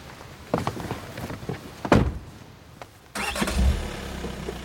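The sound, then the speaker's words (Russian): An Audi car starts and drives away: a few scattered door-like thunks and knocks, then the engine turns over into a steady, low rumble that runs to the end, all fairly quiet. “Старушка смотрит вслед уезжающей Ауди.”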